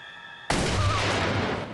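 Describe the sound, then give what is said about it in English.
A single gunshot from a handgun in a tense confrontation cuts into near quiet with a sudden loud blast, followed by a dense, noisy rumble that carries on to the end without fading much. “when he hears the shot”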